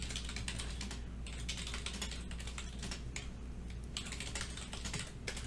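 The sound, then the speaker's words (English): Typing on a computer keyboard: many quick, light keystrokes clatter in an uneven, continuous run with brief pauses. “Talk to the folks while I type here.”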